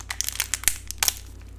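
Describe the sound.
Wrapper of a dark chocolate sea salt bar being torn open: many sharp, crinkly crackles in quick, irregular bursts, some louder snaps among them, with no voices.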